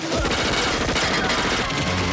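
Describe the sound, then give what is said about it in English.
Rapid gunfire from men in white suits firing their guns as they spring up from under the snow. A dense, unbroken fusillade of overlapping shots stays loud throughout. “Men in white suits spring up from under the snow, firing their guns.”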